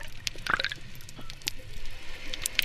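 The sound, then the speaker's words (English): Underwater sound in Sydney Harbour: scattered sharp clicks and small wet pops over a low, steady watery hiss, with no voices. “I'm recording the sounds of Sydney Harbour from underwater.”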